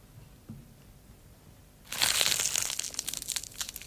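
The heart of a lettuce is crushed by hand, giving a dense, crackling crunch of many quick snaps and crinkles. The crunch starts abruptly after a near-silent stretch and continues fairly faint to the end.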